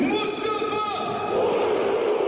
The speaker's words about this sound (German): So, Tor für Hannover 96 und den Jubel genießen wir jetzt mal.